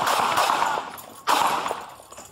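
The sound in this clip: Gunshots fired by police during a knife confrontation in Dallas, Texas: loud, sharp reports with long ringing decays, one at the very start and another clear bang about halfway through, with no talk between them.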